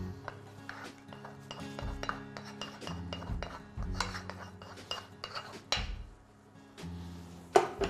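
Stirring in a pan of pasta with butter and cooking water: repeated scraping and metallic clinks of a utensil against the pan, in an irregular rhythm at a moderate level, with no talking.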